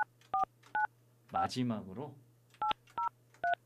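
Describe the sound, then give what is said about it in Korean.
Telephone keypad tones dialing out for a radio call-in: six short, bright two-note beeps, three before and three after a brief burst of voice, over a steady low hum. “마지막 연결이 될 것 같습니다. 시간이 많지는 않지만, 자, 신호 갑니다.”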